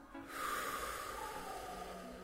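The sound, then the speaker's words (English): A forceful exhale during a guided breathing exercise: one long, breathy, faint hiss lasting about two seconds, heard alone without speech. “Breathe that shit out.”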